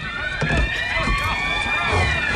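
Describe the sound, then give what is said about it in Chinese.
Hurried footsteps of many people running down the stairs of a residential building, low thudding steps in a dense, loud commotion with voices mixed in. “哟，这人们都在往楼下跑啊！是不是着火了？”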